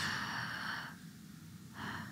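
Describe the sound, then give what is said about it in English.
A deep breath drawn in during a guided meditation on stillness, a soft, breathy rush of air heard faintly and alone, easing off midway and then returning near the end. “So returning to our breath helps still us. Can you feel a difference? And it's like breathe in love.”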